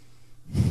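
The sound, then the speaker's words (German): After a near-silent pause of held breath, a single loud, rushing burst of breath comes out sharply, like a snorting exhale, as the person starts breathing again. “Ich atme wieder.”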